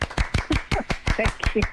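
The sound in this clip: Applause as a run of sharp, rhythmic claps, many in quick succession, with a voice mixed in among them.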